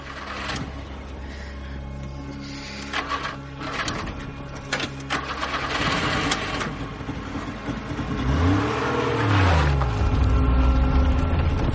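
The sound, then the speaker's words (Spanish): A car engine runs as the car drives along a road through mountainous country, with a rattling mechanical drone that grows louder and fuller toward the end. “El coche circula por una carretera que atraviesa un paisaje montañoso.”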